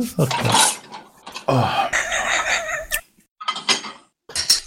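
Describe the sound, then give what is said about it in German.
Dishes and cutlery clatter as a dishwasher is emptied and loaded, with many irregular clinks and knocks in busy bursts separated by short pauses. “Was geht denn mit dem Geschirr? So, da schnell die Geschirrspülmaschine ausräumen. Nein, ich muss sie einräumen.”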